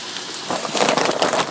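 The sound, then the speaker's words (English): Frozen vegetables cook in a hot pan, giving a dense, hissing sizzle with a crackle that grows louder partway through. “because they're frozen, I want to cook them till they're thawed so that we don't get a more moist,”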